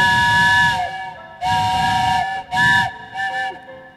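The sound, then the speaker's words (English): A steam train whistle blows in a few loud, sustained harmonic blasts, the first two long and the later ones shorter, each ending with a slight pitch bend, with no voices heard. “Now the train whistle's making me nervous. You'll put your hand in the air when you want train whistle.”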